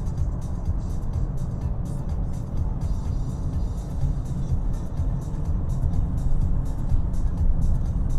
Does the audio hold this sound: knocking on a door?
no